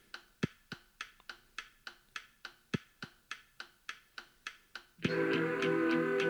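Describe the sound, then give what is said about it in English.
A metronome ticks in a quick, perfectly even run of many sharp clicks, then music comes in loudly at the end. “Metronome. Yep.”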